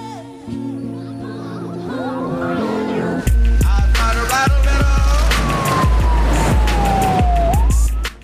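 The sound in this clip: An ambulance siren wails, its tone gliding up and down in long sweeps, loud and continuous, joined partway through by heavy rhythmic low thuds.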